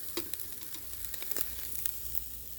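Meat with a rub sizzling on a charcoal grill: a steady crackling hiss with many sharp pops scattered throughout, moderately loud, with no talking.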